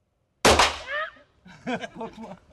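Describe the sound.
A single loud gunshot from a Glock handgun loaded with a .45 caliber round cracks sharply at a shooting range. Its brief ringing tail fades, and then people talk.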